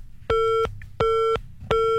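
Telephone busy tone after a phone call is cut off: three identical steady electronic beeps at an even pace with short silent gaps between them. The tone is clear and moderately loud, and the last beep is cut short.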